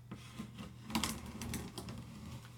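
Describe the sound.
An iPad is unpacked from its box, giving faint rustling, scraping and light clicking of cardboard and packaging over a steady low hum.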